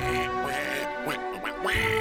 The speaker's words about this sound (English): It's a giant duck! It's purple polka dotted!